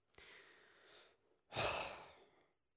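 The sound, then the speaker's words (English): A deep breath taken alone: a softer airy breath sound first, then after a short pause a louder, longer rushing exhale that fades gradually. “I just wanted to take a breath just to feel that, you know?”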